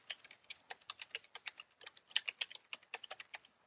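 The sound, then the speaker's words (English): Quick typing of an email address on a computer keyboard: many light, crisp keystrokes in an uneven, fast rhythm, faint and with no voices. “And I'll type in my email and press enter.”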